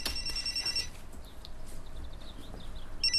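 A telephone rings in high, electronic-sounding trills, one long burst at the start and another starting near the end. Faint chirpy high notes and a steady low background fill the gap between them.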